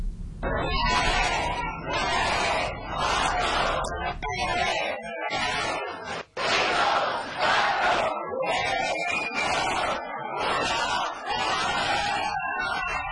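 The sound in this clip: A crowd shouts in Madrid at 9 a.m. at the H&M launch of a Roberto Cavalli collection. Loud bursts of massed voices repeat in waves, with brief dips between them, over a constant babble.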